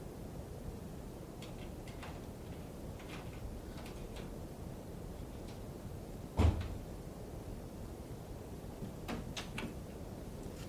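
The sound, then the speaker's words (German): A door being opened gives one brief, solid thump or latch knock midway through an otherwise quiet stretch with a low background hiss and a few faint clicks. “Hören Sie, da ist jemand an der Tür. Wenn Sie nicht sofort hingehen und aufmachen, dann...”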